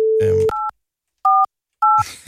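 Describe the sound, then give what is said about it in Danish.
A steady telephone dial tone gives way to three separate dual-tone keypad beeps as a phone number is dialed, the beeps spaced apart with silence between them, while people talk at the start and end. “Og ringer til Karoline Havbæk.”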